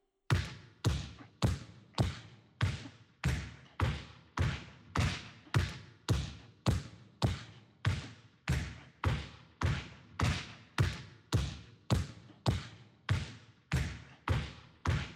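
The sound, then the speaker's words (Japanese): A basketball is dribbled with both hands in front of the body, making a long, even series of many sharp bounces. Each thud hits the floor at a steady, unhurried rhythm with no talking. “この方がボールはすぐに手元に来てくれるです。じゃあ、このまま体の前、両手でドリブルです。”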